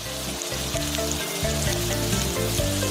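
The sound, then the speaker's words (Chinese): Steady, loud sizzling of scallions cut into lengths, chunks of ginger and sliced onion simmering in oil to make scallion oil, a dense bubbling crackle with no one talking. “葱切段，姜切块，洋葱切丝，这些准备都是为了熬出一碗极致的葱油汤。”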